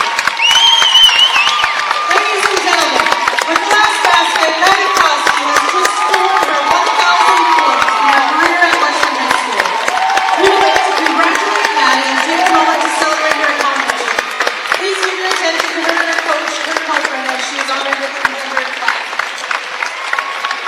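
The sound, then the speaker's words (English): Fans on both sides of the stands applaud and cheer at a high school basketball game, where play has stopped to honour a player's 1,000th point. The clapping and shouting stay loud and steady throughout, with a voice talking over them. “Fans on both sides of the stand standing up applauding her.”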